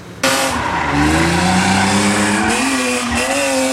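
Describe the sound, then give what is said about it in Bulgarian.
Tires squeal loudly as cars drift around cones at a road-safety drift demonstration on a secured proving-ground track. A continuous screech starts abruptly, with engine roar and the wavering squeal shifting in pitch throughout. “Любителите на високите скорости показаха майсторство при преодоляване на зрелищните дрифтове, но не на магистралата, а на обезопасена писта на полигона.”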